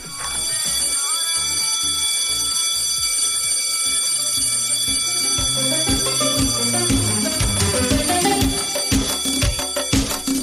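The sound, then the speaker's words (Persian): A school recess bell rings in a continuous, bright, high metallic trill that holds steady throughout. A rhythmic musical beat runs underneath and grows busier toward the end. “شهرام جان زنگ تفریح بزن بره.”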